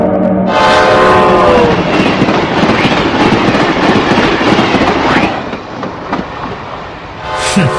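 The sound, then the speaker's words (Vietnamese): A train at a railway station sounds a loud horn blast, then rumbles and clatters along, with a second horn blast rising at the end. “Ở ga xe lửa”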